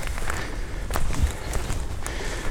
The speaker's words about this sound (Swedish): Reservatet har nyligen utökats och vi går på en körväg och det är inte så himla lätt att gå faktiskt.